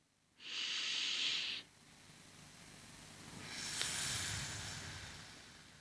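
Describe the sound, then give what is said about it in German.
Breathing in during a slow breathing exercise: two airy breath sounds, a short sharp hiss followed after a pause by a longer, softer draw of air, with no talking. “Ich atme nochmals ein.”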